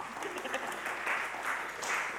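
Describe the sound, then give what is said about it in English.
Audience applause greets a volunteer invited up for a demonstration during a talk. The clapping is soft and steady, a continuous patter with no distinct individual claps, lasting about two seconds. “This is the lovely cat. Quick round of applause.”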